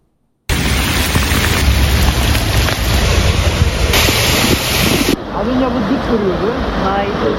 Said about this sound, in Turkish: Meteorolojinin uyarılarının ardından beklenen yağmur bulutları İstanbul semalarına böyle giriş yaptı.